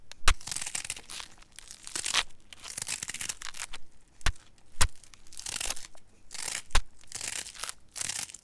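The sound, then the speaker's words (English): Tearing, crunchy cutting as the top of a seed-filled object is cut open to remove the seeds, irregular rasping strokes broken by several sharp cracks. “I've already marked out where I'm going to cut, so let's begin, shall we?”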